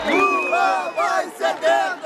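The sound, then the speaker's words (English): Supporters of a president cheer and chant at a political rally in Brazil, many voices blending into loud, sustained waves that dip briefly and surge back. “Supporters of President Lula da Silva cheering him on at a rally.”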